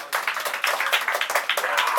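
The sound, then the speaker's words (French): An audience applauds a sound technician at a mixing console with brisk, closely packed claps that keep a lively, fairly even rhythm for two seconds. “Allez, on applaudit, comment?”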